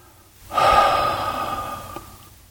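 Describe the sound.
A long, heavy exhale: one steady, breathy rush of air that swells quickly, holds for about two seconds and then trails off, with no talk.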